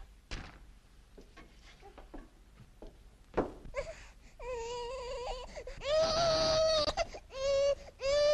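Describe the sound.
An infant cries, beginning with a few short whimpers after several quiet seconds, then building into loud, sustained wails broken by brief pauses for breath.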